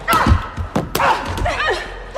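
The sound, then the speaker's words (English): Heavy thuds of punches and kicks land in a ring fight. A few short, blunt impacts come in quick succession and then stop. “Molly punches Christina down and kicks her.”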